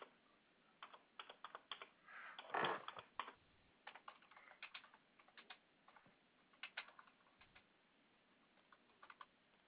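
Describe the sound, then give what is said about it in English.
Credit card details are typed on a computer keyboard in quiet, irregular runs of key clicks separated by pauses, with one louder burst of rustling clatter early on. “so I'm putting in the credit card information right but now”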